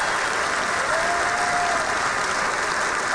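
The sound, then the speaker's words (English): Applause from a church audience at Cornerstone Church in San Antonio: a dense, continuous wash of many hands clapping, held at an even level throughout with no single voice standing out. “Put your hands together and welcome King Jesus into the house.”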